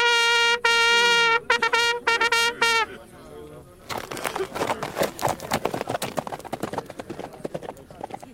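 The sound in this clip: Hooves clip-clop at a quick, lively pace as a young rider in farmer's Sunday clothes rides a horse toward the next village. Many loud hoofbeats follow a few seconds of sustained tonal sounds.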